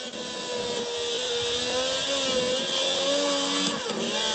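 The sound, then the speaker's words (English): A race car engine from a racing video game drones through the Eau Rouge corner, a steady buzzing roar of layered tones that wavers slightly in pitch, with no talk. “Gotta love the sound of Eau Rouge going through that. It takes a lot of concentration, even with the video game.”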